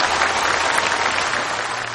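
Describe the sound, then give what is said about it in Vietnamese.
Applause from an audience at a Buddhist dharma talk, a dense, steady patter of clapping that fills the short stretch and eases slightly at the very end. “Một tràng pháo tay.”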